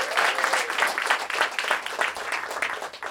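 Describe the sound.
An audience at a live music concert cheers and applauds, a dense, steady wash of clapping with whoops mixed in, sustained at an even level throughout.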